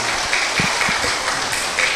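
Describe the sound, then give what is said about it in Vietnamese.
Audience applause at a Buddhist dharma talk: a loud, continuous crackle of many hands clapping with no break, a few deeper thumps scattered through it. “Ông thầy này có trí tuệ đó, vỗ tay khen ông đi.”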